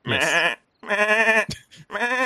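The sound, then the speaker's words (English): A goat bleats three times in a row with loud, wavering, nasal cries. A brief rustle falls between the second and third, and the last bleat is cut off. “So I pat the goat. Okay. It accepts your pat. It is quite friendly towards humans”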